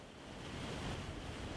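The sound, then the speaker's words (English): City wastewater pours from one of the biggest drains in Varanasi into the river, a heavy, unbroken roar of rushing water that holds steady throughout. “This is all the wastewater from the city.”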